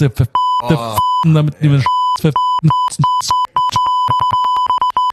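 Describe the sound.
Beeping from a button: a steady, high electronic tone in short pulses that speeds up into many rapid, brief bleeps toward the end, while a person talks over the first part.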